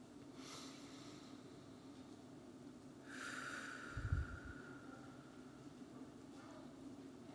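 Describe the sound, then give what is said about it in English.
A group at a church service taking three deep grounding breaths together, heard as three faint, evenly spaced swells of airy breath rising out of a quiet background hush. “Let us begin to embody that spirit now as we take three breaths, three deep grounding breaths at our own pace together.”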